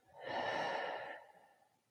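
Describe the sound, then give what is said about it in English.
One deep breath, soft and airy, swells and then fades over about a second and a half, faint and alone during a relaxation exercise. “And a deep breath in and out.”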